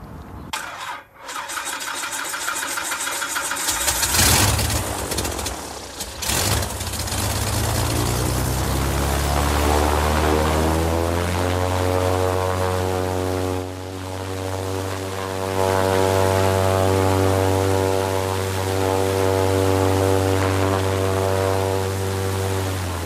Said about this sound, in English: I'm going to have to start the motor to do that. All right. But if you just step down and back a little ways, then I'll start up the motor and give you a little squirt of smoke.